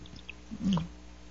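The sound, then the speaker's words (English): A single quick sip of water: one short, soft slurping gulp in the middle, faint and alone. “Let me take a quick sip of water here,”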